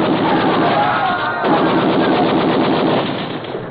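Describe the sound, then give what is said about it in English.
Sustained machine-gun fire aimed at a lifeboat, a dense rapid rattle of shots that runs almost without pause and thins out slightly at the end. “Lieutenant, that lifeboat will make a good target for you. Yeah, I need the practice. Shoot,”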